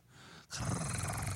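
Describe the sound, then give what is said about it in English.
A voice imitating a roar: a brief quieter lead-in, then one drawn-out, raspy, growling roar. “I'll do a sexy roar. It's like, roar.”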